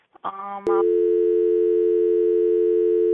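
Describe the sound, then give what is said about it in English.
A telephone line tone follows a call that was cut off. A short burst of sound gives way to a click, then a loud, steady tone that continues unbroken. “B.W. Valentine got cut off there during her phone call.”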